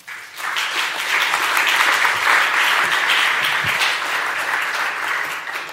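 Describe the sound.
Warm audience applause greets a speaker, an author, as he is welcomed to the stage: a dense, steady wash of clapping that starts at once and holds at an even level for the whole stretch, with no voices over it.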